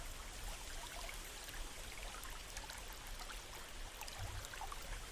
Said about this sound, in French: Écoutez le bruit de l'eau qui s'écoule, se dirigeant dans la même direction que vous.